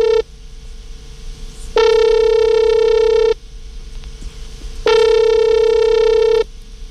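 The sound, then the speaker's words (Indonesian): A telephone ringback tone sounds as a call is placed: two long, steady, buzzy rings separated by a pause, with a faint continuous tone in between. “Kalau gitu kita akan coba untuk hubungi Tiara. Semoga diangkat ya. Ya, semoga. Oke, kita akan coba dulu hubungin Tiara sahabat Sonora.”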